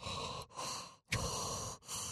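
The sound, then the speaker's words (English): A voice imitates heavy mouth breathing: a few long, airy, noisy breaths separated by brief pauses, fairly quiet, with no talk. “mouth breathing? What was she looking at? Yep, total mouth breathing.”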